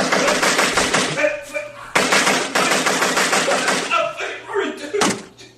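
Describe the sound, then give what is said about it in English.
Rapid automatic gunfire in a video game, dense rattling bursts of shots with short gaps between them, loud and harsh. “You like that? You like getting shot? Do you like getting shot?”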